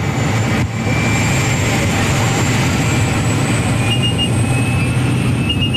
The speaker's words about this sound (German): Zusammengequetscht wie Sardinen in Büchse hocken wir mit etwa 10 anderen Leuten in farbigen Ganzkörperanzügen in einem munzigen Flugzeug. Es ist dermassen laut, man versteht fast sein eigenes Wort nicht.